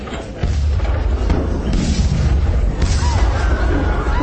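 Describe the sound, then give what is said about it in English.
A gun fires in the distance toward Chertsey, near where the Wey and Thames meet: one deep boom, then a heavy, sustained low rumble that lingers to the end with no talk. “Then, in the direction of Chartsey, came the sound of a gun.”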